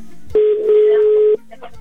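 A telephone call is dialed and rings through on a live show. A single steady, mid-pitched ringback tone sounds for about a second, clear and loud, with quiet line noise before and after.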